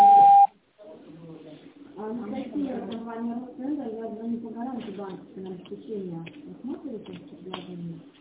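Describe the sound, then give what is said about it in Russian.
A voicemail beep signal: a single steady, loud electronic tone lasting about half a second, then a short silence before people start talking. “Вы можете оставить для него голосовое сообщение после сигнала.”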